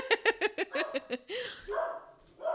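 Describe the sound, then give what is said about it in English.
A dog barks at someone at the door in a rapid series of sharp, loud barks, then lets out a longer, drawn-out whine. “So there's our dog. There's someone at the door.”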